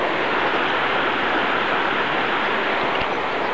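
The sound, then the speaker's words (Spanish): River water flowing in El Bierzo on the Camino de Santiago: a constant, dense, fairly loud rushing wash that never breaks or changes. “Agua del río, del agua del Bierzo. Un río.”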